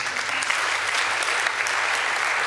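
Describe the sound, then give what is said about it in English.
Audience applause in a church service, a dense, steady wash of clapping that holds at an even level for the whole stretch with no voices rising above it. “Give that man a clap.”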